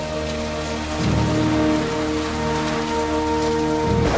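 Steady rain pours down during a storm with lightning, a dense, continuous hiss that grows heavier after the first second, with sustained tones underneath.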